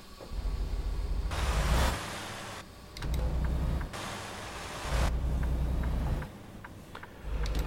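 A car driving toward a petrol station, its steady rumbling engine and road noise swelling and receding in several waves separated by quieter gaps, with no talk.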